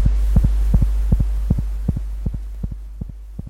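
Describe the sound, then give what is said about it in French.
Heartbeat of a chicken embryo's heart after it was frozen to -196 degrees: many soft, paired thumps in a steady rhythm over a constant low hum. “Vous entendez en ce moment les battements d'un cœur d'embryon de poulet qui, après avoir été congelé à moins 196 degrés,”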